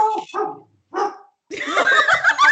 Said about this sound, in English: That's my dog.